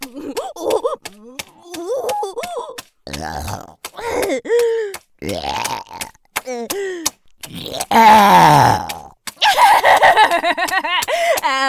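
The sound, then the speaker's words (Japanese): Deliberate, repeated burping: many loud belches of varied length and pitch, some drawn out and rumbling, separated by short pauses, with a few groaning vocal sounds between them. “楽しいやばいゲップ止まんない”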